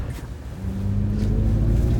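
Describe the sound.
A Chevrolet Silverado pickup truck braking hard from speed gives a deep, steady drivetrain rumble with a droning tonal hum that swells slightly louder as the heavy vehicle slows.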